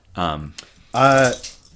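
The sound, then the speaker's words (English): Metal tags jangle on a dog's collar as the dog shakes itself, producing a few short bursts of bright, loud clinking. “Sorry, that's my dog shaking his collar.”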